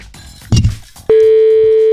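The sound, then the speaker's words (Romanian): A phone call tone after dialing a number at random: brief rustling and a thump, then a loud, steady single-pitched tone that holds unbroken to the end. “Hai să sunăm așa, pur și simplu, da? Să vedem dacă știe piesa cu pupic. La nimereală sună.”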